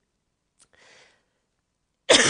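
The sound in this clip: A cough or throat clearing from a tickle in the throat. A faint, breathy sound comes first, then a sharp, loud burst arrives near the end and is cut off, with no talk.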